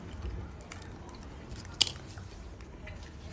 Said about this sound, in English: This is like exactly what a real breakfast burrito tastes like back in the day.